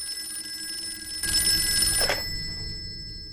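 A telephone rings once in a short, bright, metallic burst lasting under a second, then stops.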